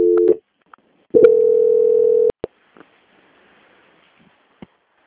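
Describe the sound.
Telephone call-transfer tone: a short tone burst, then a longer steady tone lasting about a second, followed by a few clicks and faint line noise.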